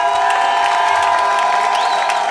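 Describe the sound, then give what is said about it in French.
A crowd cheers and applauds outside a courthouse as activists on trial climb the steps, a dense, loud, steady roar of voices and clapping with no pauses. “Ils sont en train de monter, vous pouvez les applaudir pendant qu'ils montent.”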